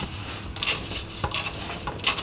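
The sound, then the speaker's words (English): Grated carrot is scraped into a mixing bowl of a hand-mixed batter with brown sugar, tomatoes and Guinness. Soft, gritty rubbing and scraping come with a few light knocks against the bowl. “Now we have our grated carrot, which goes in.”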